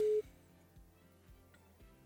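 A call-waiting signal for an incoming second phone call sounds as one short, steady, mid-pitched beep at the start, then the line goes quiet.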